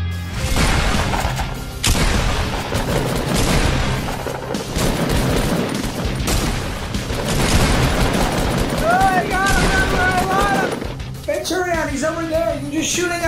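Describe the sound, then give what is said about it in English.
Gunfire rings out in the video game Fortnite, with rapid bursts of shots and heavy booms repeating throughout. Excited players talk over the shooting. “Turn around, he's over there, you're just shooting at a wall!”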